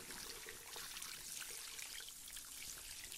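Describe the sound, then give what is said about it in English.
Running water rinses shampoo out of hair during a hair wash and scalp massage: a steady, soft, trickling stream throughout, with no talk. “Just rinsing out all of that shampoo there.”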